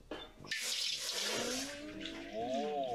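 Coconut water pours into a pot of dissolved agar powder in a steady, splashing stream that starts after a brief pause, with a ringing tone climbing as the pot fills.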